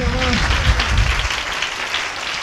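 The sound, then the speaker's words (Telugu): A church audience claps to praise God, producing dense, hissing applause that stays fairly loud and even. A low voice sounds under the clapping during the first half. “అందరు చప్పట్లతో దేవుని కనపరుస్తామా”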